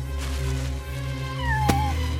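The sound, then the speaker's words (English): A chocolate point Siamese cat gives one short, wavering meow with a sharp click near the middle, over a steady low hum. “She's a purebred chocolate point Siamese.”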